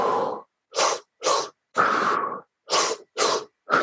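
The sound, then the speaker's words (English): Deep double helix breathing through the mouth, filling the belly and then the chest, heard as seven forceful, hissing breath bursts in an uneven rhythm, one noticeably longer than the rest, with no talk. “you breathe one breath into your belly really deeply from the mouth, and then the second one into the chest.”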